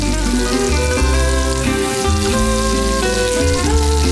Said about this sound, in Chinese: 倒入本地2斤条辣椒面，持续搅拌，释放辣味因子。